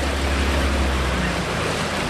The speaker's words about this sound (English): Two teenage boys returning from a fishing trip motor their boat up to the ramp at the sandy bank on a bend in the river